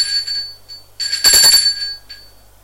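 A doorbell rings at an apartment door, a bright, high metallic ringing with sustained tones that swells into a louder burst midway, then fades with a brief final chime.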